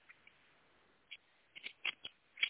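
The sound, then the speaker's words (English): Tarot cards from a Divine Feather deck being pulled: a string of quiet, sharp card taps and flicks, sparse at first, then several crisp snaps closer together toward the end, with no voices. “I'm going to pull a couple of cards for today.”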